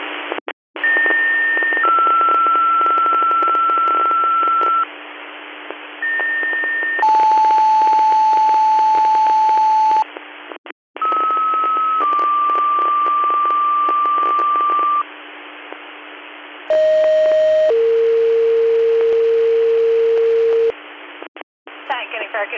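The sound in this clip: Radio dispatch alert tones for a squad's code 2 call: two sets of long, steady, pure tones over band-limited radio hiss. Within each set the tones step down in pitch, and a short gap separates the two sets.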